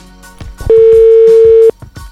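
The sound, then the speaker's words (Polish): A telephone tone as a call is placed: one steady, loud beep lasting about a second, set over a faint rhythmic background. “Dzwonimy do Łukasza.”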